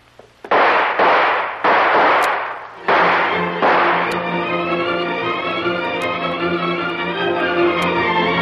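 Gunshots fired inside a natural cave with dug tunnels: a few loud, sharp bursts in quick succession, each with a long rumbling tail, followed by a steady, sustained tonal drone.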